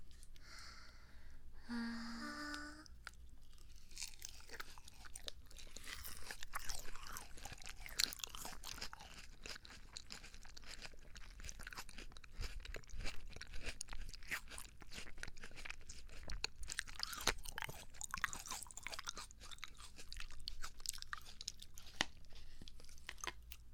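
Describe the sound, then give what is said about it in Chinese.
Crunching and chewing while eating melon: continuous crisp bites and moist mastication, fairly quiet and steady throughout, with many small crunches and no talk. “先生可以 吃瓜， 尝一下我们的水果。 吃瓜，吃瓜，可好吃了。 我们喂你。”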